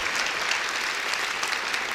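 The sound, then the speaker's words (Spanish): A church audience gives loud applause to God during a worship service, a thick, unbroken roar of many clapping hands that stays steady from start to finish. “démosle ese aplauso fuerte a Dios”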